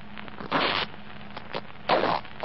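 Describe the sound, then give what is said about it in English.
Jacket breast-pocket lining being cut open, two short rasping bursts of fabric cutting separated by a quieter pause with a faint tick, with no voices. “I sewed inside the lining of this breast pocket a photograph and 250 mark notes. If this is my jacket, they should be here now. Well, cut it. Cut the lining.”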